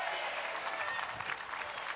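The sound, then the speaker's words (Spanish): Weak, thin applause from a church audience during a sermon: a steady, even patter of clapping hands at moderate loudness that lasts the whole clip, with no talk over it. “ese aplausito aguado, agárrelo para usted”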